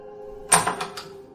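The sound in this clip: A house door being opened: a sharp latch-like click followed by a few lighter rattling clicks, faint over a steady low background hum.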